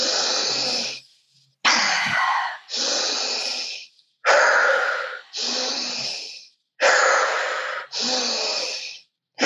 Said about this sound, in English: Deep breaths in and out.